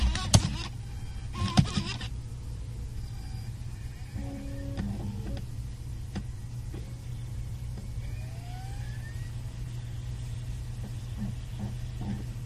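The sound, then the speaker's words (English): A blank DVD is pushed into the separate drive of a MacBook Pro and the drive spins up. A couple of sharp clunks come early, then a steady low mechanical whir continues underneath, with a few faint electronic tones. “Okay, waiting for a disk to be inserted, and I've currently got my blank DVD currently just sitting in the separate drive of my MacBook Pro. So I'm going to push it in now.”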